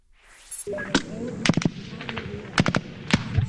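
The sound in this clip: Sharp gunshots crack irregularly during a U.S. Marine offensive in the city of Marja, Afghanistan, several loud reports rising over a steady rumble with voices faintly present underneath.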